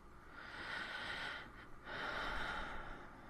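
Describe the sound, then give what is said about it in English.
Close breathing against the throat: soft, airy breaths heard as two sustained stretches split by a brief pause. Quiet and intimate, with no talk. “I know you can feel my breath against your throat.”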